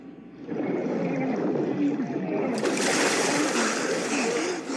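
Water splashing during Coast Guard rescue swimmer training, a constant churning thrash that grows brighter and more forceful partway through and stays loud to the end.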